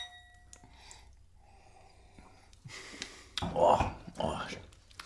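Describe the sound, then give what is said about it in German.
Glasses of sparkling wine (Sekt) clink together in a toast, a short bright ringing chime, followed by louder breathy sounds. “deswegen startet man hier in den Podcast mit einem schönen Sekt. Ja, das stimmt allerdings. Ähm, Stößchen.”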